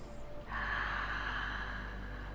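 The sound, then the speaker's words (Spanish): A deep breath drawn during a guided spiritual meditation: a long, soft, airy inhale that begins after a half-second pause and holds steady to the end, faint and alone with no talking. “Respira tan profundo como puedas”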